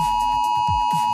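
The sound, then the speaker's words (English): Steady electronic alert tone from a test of a new emergency warning system, blasting from phones, tablets and smartwatches: one sustained, fairly high-pitched tone that holds unbroken throughout, with faint low rumbling beneath it. “And every phone, tablet and smartwatch in Australia will blast an alarm at 2 p.m. today. It sounds like this.”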